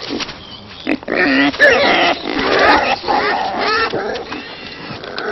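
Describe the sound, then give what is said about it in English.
Wild boars squabble over a walnut, a loud, continuous tangle of harsh high squeals and lower grunting that runs the whole length with only brief dips. “But despite the squabbles, wild boars are social animals and gather together in groups.”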